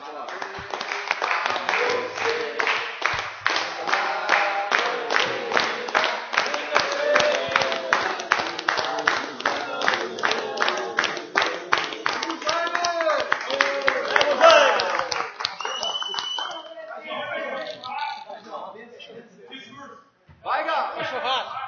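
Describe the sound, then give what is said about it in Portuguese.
A group sings a birthday song in Portuguese to steady, rhythmic hand clapping, with voices and claps filling the whole span before the singing breaks off near the end. “Vamos cantar parabéns.”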